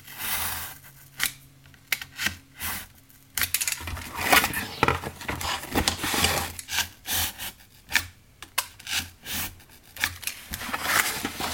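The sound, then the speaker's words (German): A craft knife scrapes along a ruler, cutting a window opening out of a miniature architectural model. Many short, rasping strokes vary in loudness, with brief pauses and a few sharper scratches between them. “Das, das schneide ich dann mit dem Lineal, mit dem Cutter aus”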